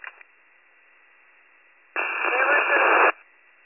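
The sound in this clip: Radio transmission static: a brief crackle at the start, a stretch of near silence, then a roughly one-second burst of band-limited hiss that cuts off abruptly.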